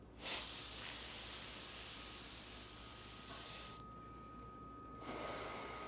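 Soft nasal inhalation through one nostril while the other is held closed during a breathing exercise: a faint, drawn-out airy hiss with a brief pause near the end before the breath resumes.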